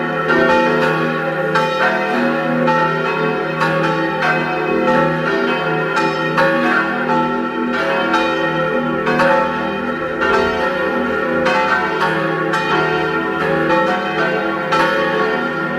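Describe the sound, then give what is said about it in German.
Noon bells ring from the Church of St. Nicholas in Egg, Vorarlberg. Several bells peal together in a dense, continuous, loud clang with overlapping strikes and sustained humming tones, and no voices. “Es ist 12 Uhr. Sie hören die Glocken der Kirche zum heiligen Nikolaus in Eck in Vorarlberg.”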